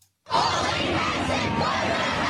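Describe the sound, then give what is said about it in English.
Crowd of students at a protest against far-right politics in Australia, a loud, continuous roar of many shouting voices that bursts in after a brief silence and stays dense and even. “Crowds were chanting expletive-laden slogans in Sydney, Melbourne, Hobart, Adelaide and Canberra.”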